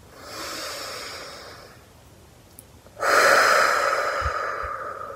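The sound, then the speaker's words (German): A deep breath drawn in, then let out through the mouth: a soft, airy inhale, a short pause, and then a louder, longer rushing exhale on its own. “Nimm einen tiefen Atemzug und atme aus durch den Mund. Noch einmal einen tiefen Atemzug.”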